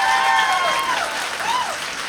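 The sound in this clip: An audience applauds, a steady spread of clapping with a voice rising over it, easing slightly in volume toward the end.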